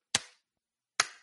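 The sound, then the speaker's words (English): A supersonic plane's sonic boom arrives as two sharp, sudden bangs a little under a second apart, each with a quick decaying tail and silence around them. “But what you're hearing there with supersonic speed, what you're hearing, what a sonic boom actually is air”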